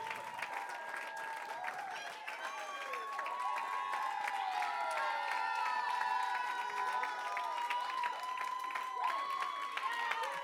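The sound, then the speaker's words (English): An audience applauds and cheers as high school student speakers are called up to a platform. Clapping is steady and full throughout, with scattered whoops and shouts from the crowd. “will you help me welcome tonight our high school student speakers up to the platform? Come on, give it up for them.”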